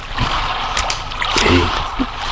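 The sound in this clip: Water is poured for someone being helped to eat, a steady splashing and sloshing wash with small gurgles that stays fairly loud and even throughout.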